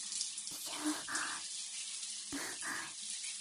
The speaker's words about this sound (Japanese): まずは背中からシャワーで流していきますね。